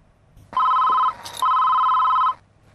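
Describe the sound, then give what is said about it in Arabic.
A telephone rings with two bursts of a bright, electronic, trilling bell tone, each lasting about half a second to a second, separated by a short gap, over a quiet background. “خليني رد على التليفون وهلا بجي.”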